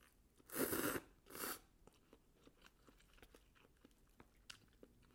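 Someone eats cup ramen noodles: two loud, broad bursts of slurping or biting noise come early, followed by a string of faint, scattered chewing clicks.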